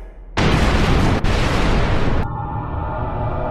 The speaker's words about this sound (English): So, all those explosions and rocket noise you hear in sci-fi movies?